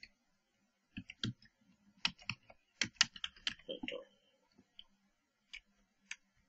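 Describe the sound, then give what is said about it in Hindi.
Keystrokes on a computer keyboard while typing text in Adobe Illustrator: many quiet, irregular clicks in short bursts with brief pauses between them. “Now मैं ये type कर चुका”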